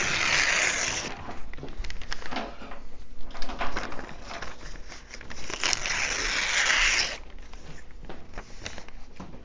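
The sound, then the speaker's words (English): A sheet of paper is torn off with a rasping rip, heard as two louder, drawn-out tearing stretches joined by a steady papery rustle. “I'm going to tear off a sheet of paper here, and we can pass this around”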